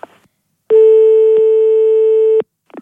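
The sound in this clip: A single loud, steady telephone signal tone holds for nearly two seconds. Faint brief sounds come just before and after it.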